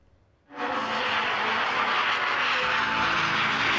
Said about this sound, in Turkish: Yerli insansız savaş uçağı bir kez daha test atışı için havalandı.